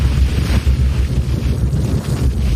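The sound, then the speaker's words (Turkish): Fishing boats head out to sea, with a loud, steady rumble of boat and water heavily buffeted by wind noise on the microphone. “Bunun üzerine 8000'den fazla balıkçı teknesi yeniden denize açıldı.”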